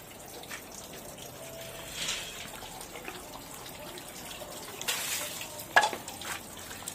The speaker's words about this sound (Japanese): じゃあ手洗いましょう、 はい、まず手を洗いましょう